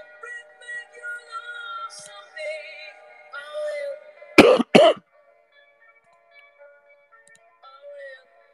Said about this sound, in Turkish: Öksürdükçe ciğerim yanıyor.